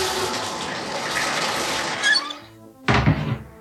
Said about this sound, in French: Enfin bon, en même temps, je vais me reposer dans mon bain, ça va me permettre de me relaxer.